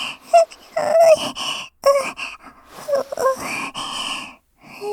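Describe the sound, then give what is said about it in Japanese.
Deep breathing and sniffing, a run of breathy, wheezy inhalations and sniffs in uneven bursts separated by short pauses, close and fairly loud. “深呼吸しないでください。やめてくださいよ。”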